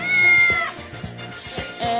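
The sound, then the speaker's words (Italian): Cats meowing, a few plaintive mid-pitched meows in quick succession, clear and alone with no talk. “Forse ci sono dei gatti anche al Macario, ma non si capisce.”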